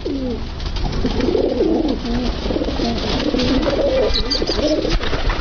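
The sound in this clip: Pigeons coo continuously in low, soft, rolling calls that repeat and overlap over a steady background hiss, the burbling phrases rising and falling for the whole stretch.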